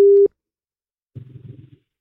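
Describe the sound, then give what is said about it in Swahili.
A phone line tone after the caller hung up: a short, loud, steady beep cuts off abruptly, then after a pause a brief low mumble follows. “Anakata. Amekata simu Cynthia”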